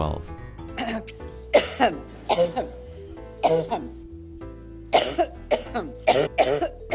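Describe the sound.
A woman's coughing fit, tied to her ongoing health concerns: many harsh, rough coughs and throat-clearing bursts come in ragged clusters over a low steady hum, loud and irregular in rhythm.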